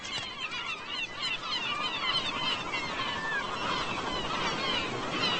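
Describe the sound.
Black gull chicks begging for food, a continuous chorus of high, thin, squeaky cheeping calls that overlap one another over a steady background hiss.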